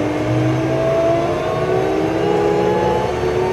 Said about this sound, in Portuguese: tá em neutro, boto em drive e alivio aqui o câmbio, apertando e destravando aqui, vai até o fim, tá solto. Agora é só acelerar.